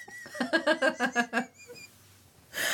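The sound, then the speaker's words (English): A wheezing laugh bursts out in seven rapid, rhythmic, squeaky pulses, high and breathy, then drops to near quiet before a short noisy sound at the end. “Sorry for the wheeze.”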